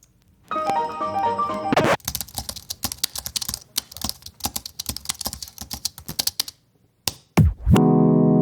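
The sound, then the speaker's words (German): Hard typing on a computer keyboard, worked into an electronic audio piece: dense runs of sharp, uneven key clicks fill the middle, framed by sustained synthetic tones at the start and a swooping electronic sweep and buzzy tone at the end. “einfach aufgenommen, wie ich auf meiner Tastatur rumgehauen habe und das eingebaut”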